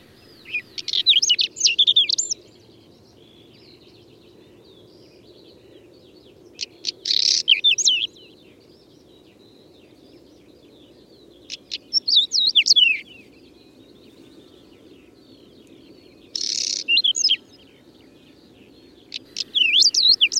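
Birdsong in five short bursts of high, rapid, twittering chirps, separated by quiet gaps of several seconds, over a faint steady low background rumble.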